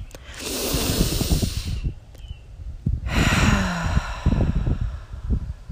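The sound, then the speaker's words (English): Deep breath in and out during a guided breathing exercise: two long, loud, airy rushes of breath, each lasting over two seconds, separated by a brief pause, with no talking. “We're going to take 3 deep breaths together”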